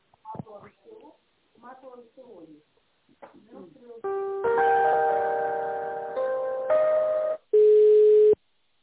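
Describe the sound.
Telephone tones during a call transfer: sustained electronic tones that shift pitch in several steps, the last one loud and steady. A few brief bursts of speech come before them.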